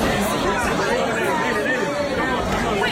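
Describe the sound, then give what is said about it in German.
Clubbers chatter in a steady, overlapping murmur at the Universe club in Ibiza after a sudden power cut. No music plays beneath the crowd of talking voices. “Nur Leute, die sich wahrscheinlich darüber aufregen, ja, dass der Strom plötzlich ausgefallen ist.”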